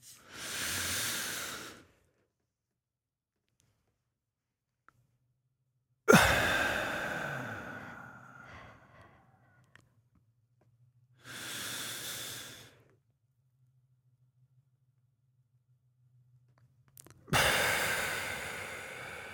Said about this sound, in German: vier Sekunden einschnaufen, sechs Sekunden Luft anhalten, acht Sekunden ausatmen? Ja. Also, ah, dann probieren wir das mal.